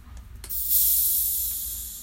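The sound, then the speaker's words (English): A can of Mountain Dew soda being opened: a couple of small metallic clicks, then a sudden crack into a loud, sustained fizzing hiss that slowly fades. “That sweet sound of an old Mountain Dew. Mountain Dew. Being open.”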